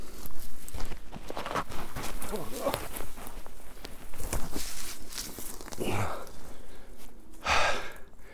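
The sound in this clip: Footsteps walking down a hill in a forest: many irregular crunching steps on the woodland floor, with breathy vocal sounds over the steady rustle.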